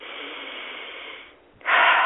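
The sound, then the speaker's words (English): Deep breathing: a long, steady, airy breath fades out, then after a short gap a louder, stronger breath follows, sounding breathy and slightly muffled. “Breathing here, guys, breathing here.”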